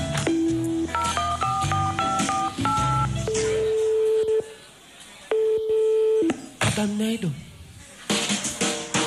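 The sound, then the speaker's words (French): Telephone keypad dialing tones as someone calls a relative: a quick series of short, clear beeps at shifting pitches, followed by two longer steady tones. “Bon bah tiens, je vais l'appeler, comme ça on sera fixé.”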